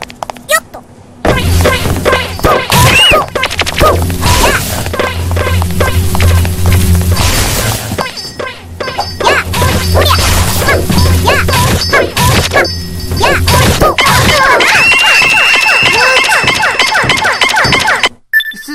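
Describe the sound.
Long sword attacks in a video game hit loudly with heavy slashes, crashes and thwacks. Many impacts come in quick succession in a dense, busy stream of combat noise.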